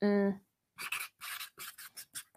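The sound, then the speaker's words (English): Handwriting: after a brief voiced sound, a quick run of short, scratchy strokes follows in an uneven rhythm, each one dry and rasping, some closer together than others. “Okay, I'm gonna write it down.”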